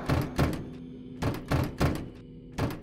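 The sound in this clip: A locked door is kicked, shoved and yanked, giving heavy, dull thuds in uneven bursts over a low, steady hum.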